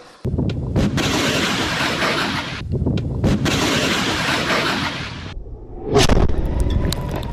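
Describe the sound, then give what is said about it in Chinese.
Anti-tank missiles strike armoured targets during a mobile military exercise, giving a long, loud roaring blast broken by a few brief gaps, then a sharp, heavy burst near the end that trails into rumbling. “机动途中，反坦克导弹分队快速完成目标捕捉和火力分配，对敌方装甲目标进行精准打击。”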